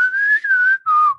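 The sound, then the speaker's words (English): A person whistles, imitating a lounge singer whistling to butterflies in the Eiffel Tower: a sustained clear note that rises slightly and falls, a brief break, then a shorter lower note sliding downward. “And she's whistling. She's like,”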